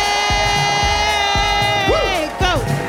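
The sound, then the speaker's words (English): A studio audience cheers and applauds a guest, with loud continuous crowd noise and high whoops rising above it. “Among other things, please give it up for the very talented and amazing Sunita Mani.”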